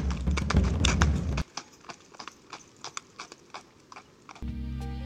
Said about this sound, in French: Je reste Aweris, je pousse les chevaux, les horses, et ça vient du cœur, je vous jure.